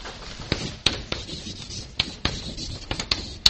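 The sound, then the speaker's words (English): Writing on a board gives a run of sharp taps and scratchy strokes at uneven intervals, many short marks in a row, fairly quiet and without any talk. “And I write it on the board because Jesus will make reference to it.”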